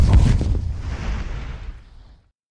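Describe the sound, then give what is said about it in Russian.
A naval gun fires a high-explosive shell with a single heavy boom. The deep blast hits hard at the start, then rolls off into a low, fading rumble that dies away over about two seconds. “«Фугасным! Заряжай!» Со звоном закрылся замок, принимая снаряд в казённик орудия. «Огонь!»”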